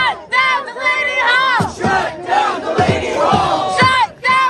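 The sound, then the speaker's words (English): Protesters outside Delaney Hall, an ICE detention center in Newark, New Jersey, chant in unison in loud, rhythmic shouted bursts separated by short pauses. “Sounds we're listening to there from protesters outside Delaney Hall. This was recorded by WABC. Delaney Hall is an ICE detention center in Newark, New Jersey”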